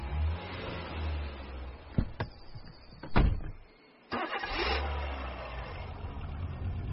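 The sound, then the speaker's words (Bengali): A car engine starts and the car drives away, a steady low rumble broken by a few sharp clicks and a heavier thump, a brief drop to near silence, then the engine noise returns. “বিজ্ঞানী চন্দ্রকান্ত একটাও কথা না বলে গাড়ি নিয়ে উধাও হয়ে গেলেন।”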